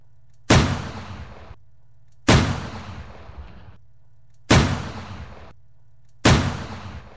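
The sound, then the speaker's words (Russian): Four loud Mauser pistol shots, evenly spaced about two seconds apart. Each sharp crack trails off in a long, decaying tail, and a faint low hum sits between the shots. “Семь выстрелов в сторону противника. Вот он я. Вот по вас откуда палят.”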